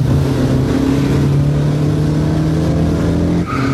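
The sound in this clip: A foreign car with loudspeakers mounted on its bonnet arrives. Its engine gives a loud, steady, droning hum with a continuous low tone that holds throughout, and the sound shifts briefly near the end.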